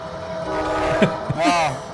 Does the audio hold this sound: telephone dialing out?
no